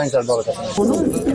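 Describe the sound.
Pigeons coo at a pigeon market in Afghanistan, a brief run of low, throaty, burbling calls rising and falling in short pulses.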